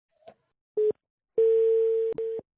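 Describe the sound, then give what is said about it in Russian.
Telephone tones on an outgoing call to collect a loan payment: a click, a short single beep, then a longer steady tone broken by a couple of clicks, all clear and alone without talk. “вот все, тихо, набираю Прохоровой”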